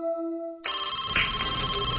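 A telephone rings with electronic tones: a soft, steady low tone gives way abruptly to a louder, buzzy, harmonic-rich ring that holds steady to the end.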